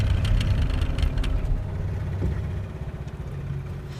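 A failing boat engine, a low rumbling drone that gradually weakens and breaks into an uneven, pulsing sputter toward the end.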